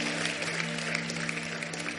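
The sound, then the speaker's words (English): An audience applauding at a church service makes a steady, dense wash of clapping with no clear pauses. The clapping is fairly faint, and a low hum runs beneath it. “Give the Lord a mighty clap offering.”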